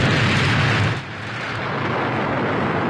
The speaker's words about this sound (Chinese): 仅仅用了3年时间，就敲开了中国人自主研制原子弹的大门。 3、2、1，起爆！